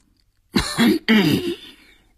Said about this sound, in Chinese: 寇少龙晃了晃肥硕的脑袋，重重地咳嗽了两声